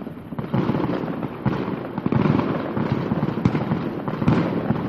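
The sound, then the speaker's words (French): Fireworks launched into the sky at the close of a royal court celebration, a dense run of cracking and popping bursts with a few sharper bangs standing out over a continuous loud crackle. “Une fois que la fête s'achève, parfois, un splendide feu d'artifice est lancé dans les cieux.”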